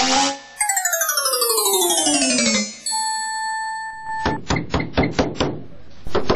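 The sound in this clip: Knocking on a door: a rapid run of several sharp raps, preceded by a descending chime-like tonal sequence and a held steady tone.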